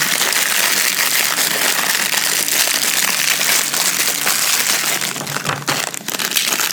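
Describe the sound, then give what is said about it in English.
Fortune cookie wrappers crinkle as they are opened, a dense, continuous rustling and crackling that stays loud from start to finish. “Well, let's very quietly open these fortune cookies.”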